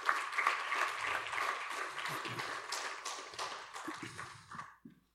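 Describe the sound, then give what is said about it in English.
A church audience applauds to welcome a pastor, with dense, steady clapping that gradually thins and fades out, leaving a few last claps at the end. “would you welcome him with your hands, please?”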